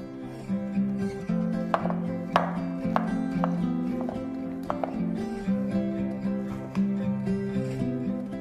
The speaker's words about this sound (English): Slice about 80 grams mushrooms.